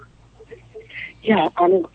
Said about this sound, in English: Oh, wait, we're calling them back again.